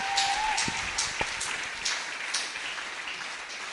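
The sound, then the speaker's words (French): An audience applauding loudly, a dense, steady wash of clapping that lasts the whole time. “Acclamez très fort. Give a loud clap offering.”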